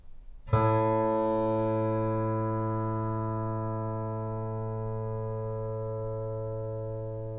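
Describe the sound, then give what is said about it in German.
A monochord, a single string stretched over a board, is plucked once. A sharp attack is followed by a low, harmonic-rich tone that rings on and fades slowly for about seven seconds. “Das Monochord, eines der ältesten Instrumente. Eine Saite gespannt über ein Brett derselben Länge, bekannt als Kanon.”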